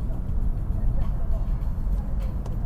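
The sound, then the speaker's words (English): Steady low rumble and drone of a road vehicle at high speed, with a tire vibrating after losing a wheel balance weight; the dense, even roar holds without a break. “I seem to have a high-speed vibration on one of these tires. I must have lost a weight somewhere along the way.”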